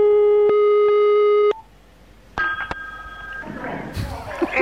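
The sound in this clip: Telephone line tones while placing a call: a steady, buzzy tone that cuts off, then after a pause a second, higher tone sounds, followed by noisy, muffled voices.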